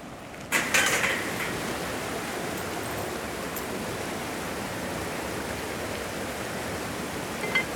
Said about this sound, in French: C'est par là qu'on ouvre ou qu'on ferme, qu'on met plus ou moins d'eau.